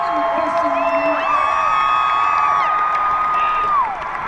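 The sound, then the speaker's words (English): Audience cheering and whooping with some applause, a loud, sustained crowd roar with high shouted whoops and voices rising above it. “Applause.”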